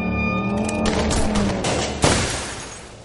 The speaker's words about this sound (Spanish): En la calle, dos coches de policía se aproximan.